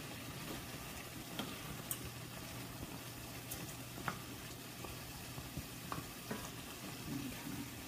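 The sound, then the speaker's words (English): Vegetables soften in a pan while rice cooks alongside, giving a faint, steady sizzle with a few light clicks and taps scattered throughout. “So right now we've got 9 minutes left on the rice here, and we're just sort of cooking these veggies here, making them a little bit softer.”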